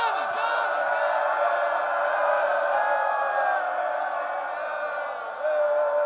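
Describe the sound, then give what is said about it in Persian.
A large crowd shouts "Ya Hussein" loudly in unison, forming a dense, sustained roar of many voices that holds steady and dips briefly near the end. “به عشق حسینش بلند بگو یا حسین، داد بزن.”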